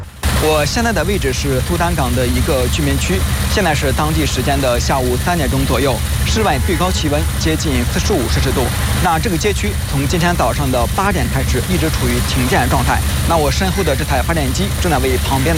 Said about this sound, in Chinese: 那我身后的这台发电机正在为旁边的一家酒店使公寓提供电力。